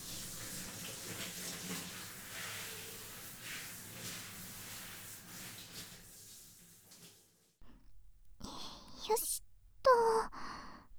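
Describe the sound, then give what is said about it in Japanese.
Hot water rinsing through hair makes a steady broad hiss for about seven seconds, then stops, followed by a few short rustling bursts. “こうやってあらかじめ汚れはお湯で落としておくと、シャンプーの粗地も良くなりますから。”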